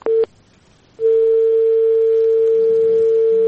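Telephone line tone after a call is cut off: two short beeps, a brief gap, then a steady, unbroken mid-pitched tone that stays loud to the end.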